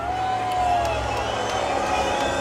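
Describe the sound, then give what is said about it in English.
A crowd at a radio hot spot tour event in Barbarie, Biel, cheers and murmurs in a steady, continuous wash of noise, with a faint high tone running through it. “Nice crowd, by the way. Nice crowd.”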